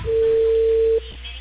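A steady telephone tone on a line after a dropped call: one sustained, even pitch holding for about a second, then cutting off abruptly to quiet line noise.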